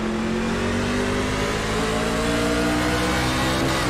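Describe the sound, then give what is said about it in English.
Race cars accelerate at the green flag, a loud, continuous roar of engines with a steady droning pitch that holds without pause. “Green flag, we're racing.”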